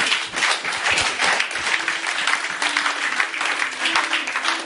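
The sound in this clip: A church audience applauds to acclaim the Lord with sustained, dense clapping that stays loud and even throughout.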